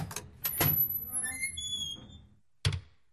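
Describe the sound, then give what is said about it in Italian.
A large front door swings open: a few soft thumps, then a drawn-out, high squeaky creak, ending in one sharp thud after a short silence. “aprite il portone per il conte Leopoldo di Liechtenstein”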